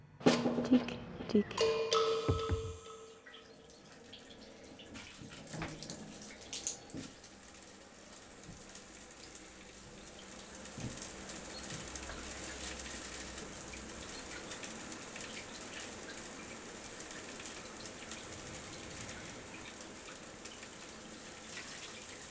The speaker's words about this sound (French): sens ma chair se réveiller à la chaleur de l'eau qui ruisselle.